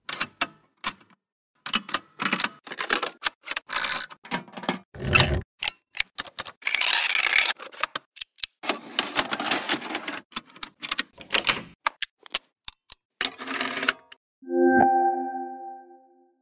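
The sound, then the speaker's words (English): Vintage mechanical switches and tape recorder mechanisms from the 70s and 80s clatter in many sharp, irregular clicks and clunks, some in quick bursts. A steady humming tone takes over near the end. “Buttons, Switches and Mini Mechanicals by EffectsWorks is a large collection of mechanical sounds from vintage tape recorders and tools from the 70s and 80s, including lots of mechanical switches”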